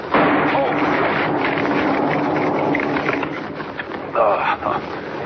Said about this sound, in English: Wired that tree to a blasting charge. Blew up right in my face. Anybody else would have been shattered to bits. It's a good thing dynamite can't hurt me.